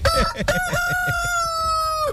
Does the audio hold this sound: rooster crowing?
yes